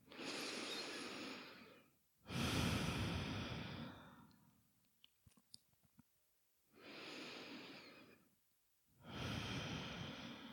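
Slow, deep breathing in and out, exhaling through the open mouth: four long, soft, airy breaths forming two unhurried in-and-out cycles, with faint clicks in the quiet gap between them.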